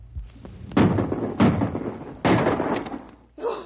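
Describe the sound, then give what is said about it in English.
Rifle shots fired at a charging grizzly bear: three loud, sharp blasts at roughly even intervals, each followed by a rough, decaying tail. “Empty your rifle right into it!”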